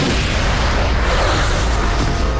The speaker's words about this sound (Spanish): Un espectáculo de 1,600 drones, luces y fuegos artificiales iluminó el cielo de París por la Fiesta Nacional de Francia.